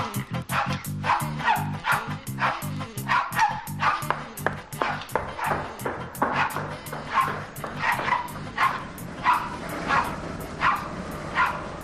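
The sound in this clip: A dog barks again and again as it is ordered into its kennel, many short, high yipping barks in a steady, bouncing rhythm over a low tonal backing.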